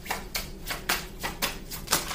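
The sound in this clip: Playing cards being shuffled and drawn, heard as several crisp, papery riffling bursts with short gaps between them, fairly loud and with no talk over them.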